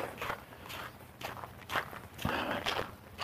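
Footsteps walk over nubbly ice with patches of snow, a steady run of gritty crunching steps, each step a distinct scrape, with no voices.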